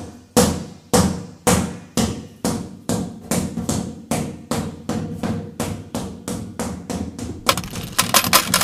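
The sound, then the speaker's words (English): Coins drop and bounce out of pockets in many sharp, evenly spaced metallic clinks, each decaying quickly. A quicker, denser flurry of bright jingles closes the sequence. “Now that is the sound of money falling out of Mr Porky's pockets.”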